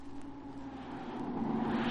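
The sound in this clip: A car engine drones as the car chases another car, a low steady hum with a faint tonal whine that grows slightly louder over two seconds, with no voices over it.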